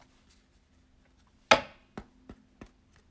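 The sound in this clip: Cards from the Cannabis Oracle deck handled and drawn: one crisp snap followed by three softer, quiet taps, with near silence around them.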